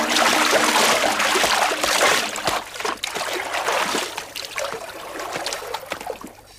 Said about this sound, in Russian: Из реки выныривают двое в водолазных костюмах, выходят на берег.